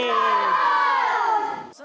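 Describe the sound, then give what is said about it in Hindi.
A crowd shouts the slogan Dawat-e-Islami together, one loud sustained chant of many voices that fades out abruptly at the end. “दुआओं में हमें याद रखना है और नारा लगाना है दावत इस्लामी।”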